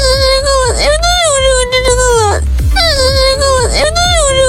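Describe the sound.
A loud crying sound effect of wailing, sobbing cries, with repeated drawn-out wails that waver and bend in pitch, one after another with no pause.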